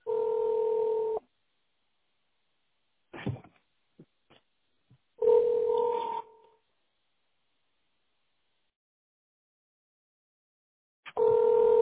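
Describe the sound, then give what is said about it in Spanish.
Telephone line tones while placing a call to a business partner, with three long, steady two-pitched tones separated by silence and a few faint clicks in between. “Estoy llamando a mi socio para preguntarle por qué no la consigo aquí.”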